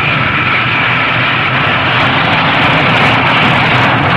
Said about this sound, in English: The supersonic Concorde makes its first landing in New York City.